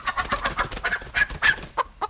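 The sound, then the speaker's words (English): Chickens cluck in a market garden, giving many short, clipped clucks in an uneven, choppy rhythm at moderate loudness. No one talks. “Some chickens and ducks also reside in the market garden.”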